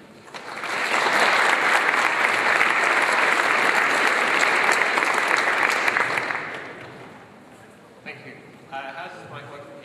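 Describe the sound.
Audience applause at a conference talk in Berlin greets a speaker: loud, sustained clapping runs for about five seconds and fades out, and then a voice begins speaking.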